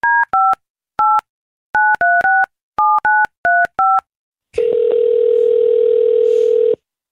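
Ten touch-tone keypad beeps dial a phone number in quick, irregular clusters, each a short, clean, loud dual-pitched tone. A steady continuous line tone follows and holds for about two seconds.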